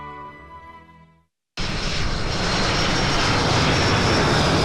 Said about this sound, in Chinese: 在空军航空大学某机场，伴随着战机的轰鸣声，又一批飞行学员驾驶着教八教练机腾空起飞，进行战术编队单飞。